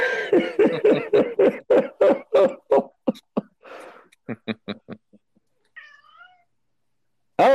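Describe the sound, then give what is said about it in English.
A cat meows in a rapid run of many short, evenly spaced calls. After a short gap, a few fainter, sharper chirps follow, then near-silence. “What's up, cat?”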